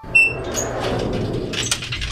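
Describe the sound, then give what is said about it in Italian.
A door is shut, with a brief knock followed by a rolling, scraping slide that fades into low rumble. “hanno chiuso la porta! Non possiamo più entrare!”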